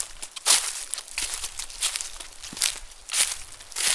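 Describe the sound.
Footsteps walk through a forest: a steady series of soft, crunching and rustling steps on the ground, fairly faint, with no talk.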